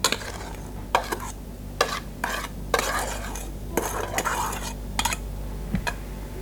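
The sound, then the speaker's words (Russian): Chopped onion is added to lingonberries and herbs, with a utensil clinking and scraping against a dish in many sharp, irregular clicks over a soft rustle, no voices. “Зелень, ягоды брусники, добавляем сюда лук.”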